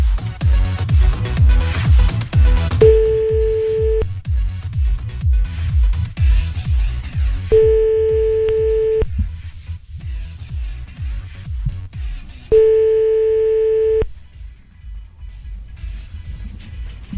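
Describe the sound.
Telephone ringback tone heard while calling someone back: three steady, mid-pitched tones, each about a second and a half long and evenly spaced several seconds apart, over continuous background music.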